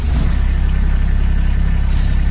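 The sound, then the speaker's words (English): Engine of a Kubota RTV utility vehicle running, a loud, steady low rumble with an even, rapid throbbing pulse and no change in pace. “That's the sound of a Kubota RTV utility vehicle. Maybe it has a Kubota orange paint job, maybe camouflage, maybe it has two seats, or maybe it has four.”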